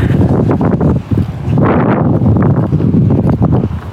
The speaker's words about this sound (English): Wind there.